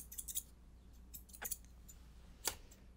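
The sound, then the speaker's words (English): Scissors snip hair during a quick trim in a haircut role-play. A few soft, crisp snips, one small cluster and then two isolated cuts, sound faint over a quiet background. “And then I'm just gonna do a really, really, really quick trim.”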